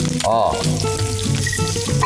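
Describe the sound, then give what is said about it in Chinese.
Garlic, ginger and onion sizzle in hot oil in a shallow clay pot over low heat, a steady, loud crackling hiss that holds without pause for the whole short stretch. “小火，现在呢是把砂锅烧热。下面还有什么动作呢？这个啊，蒜粒、油生姜，来点洋葱，”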